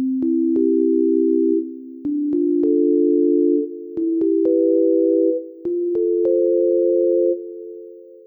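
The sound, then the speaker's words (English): A slow progression of four sustained, smooth synthesized chords, each held about two seconds with brief clicks at the changes, drifting gradually higher; stands in for dry heaving noises, with no voices. “I've replaced the dry heaving noises with this chord progression.”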